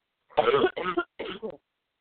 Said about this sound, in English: I'm sick, so I do apologize. Wouldn't be the first time we did a show and I was coughing all over it.